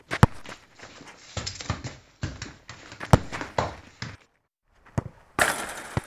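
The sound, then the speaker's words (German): Children play football during school break: irregular thuds and knocks of a ball being kicked, some louder than others, with a short quiet gap before a final burst of impacts. “Unsere Jungs und manche Mädchen spielen bei gutem Wetter in der Pause Fußball.”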